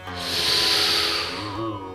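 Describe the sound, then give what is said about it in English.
A long, deep inhalation taken during yoga breathing makes a steady, breathy hiss that swells and then slowly eases off over about two seconds. “To reduce stress and increase self-confidence. Inhale deeply.”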